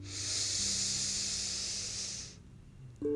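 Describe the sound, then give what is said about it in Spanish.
A deep inhalation during a guided breathing exercise: a long, steady, airy hiss that holds evenly for about two seconds, then stops and leaves near quiet. “Lo hacemos junto. Inhala profundo.”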